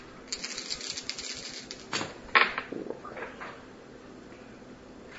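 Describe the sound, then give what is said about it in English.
Dice rolling during a tabletop role-playing game, a quick scatter of light clicks and rattling taps that settles into near silence. “Seems like I rolled doubles pretty much.”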